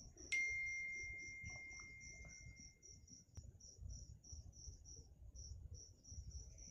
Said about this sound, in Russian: Так кайфово цикады на фоне.